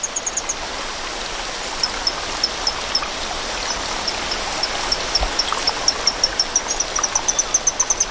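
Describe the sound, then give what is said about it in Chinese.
Loud, steady rushing of a stream's flowing water fills the whole clip, with a regular run of short, high-pitched chirps repeating faintly above the noise. “变化叫声的效果还算不错，水流的声音还是太大了，需要更强效的措施。”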